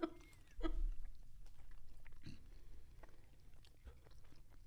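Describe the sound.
Faint chewing of spicy hot wings dunked in sauce: soft, wet mouth sounds and small bites repeat irregularly throughout, with no talk.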